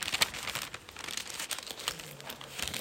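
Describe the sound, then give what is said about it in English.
Paper crinkling as a page of a Bible is folded, a soft continuous rustle scattered with a few sharper crackles, faint throughout. “I'm going to fold a page in my Bible.”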